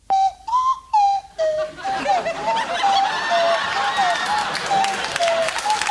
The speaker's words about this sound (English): The second is when Rodan's The Kiss turns into an ocarina. The audience thinks that's hilarious.